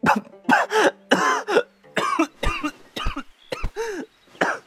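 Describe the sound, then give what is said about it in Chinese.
A performer voices a violent, racking fit of coughing: many harsh, rapid coughs in close succession, loud and nearly continuous throughout. “喘得太急，呛出了他一阵撕心裂肺的咳嗽。”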